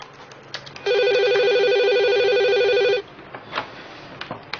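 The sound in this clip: A telephone rings once, a steady, bright electronic trill lasting about two seconds, loud against a quiet background with a few faint clicks before and after.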